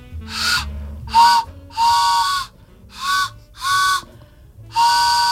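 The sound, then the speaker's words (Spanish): A homemade whistle imitates an old steam train. Six loud, chord-like blasts of uneven length sound with brief gaps between them, some short and some held longer, with no talking. “¿Pero eso qué hace? ¿Cómo suena? Es un tren.”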